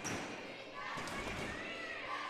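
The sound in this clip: A basketball is dribbled on the court during a girls' high school game, Exeter against Eastern York, giving a few dull bounces under voices and crowd noise.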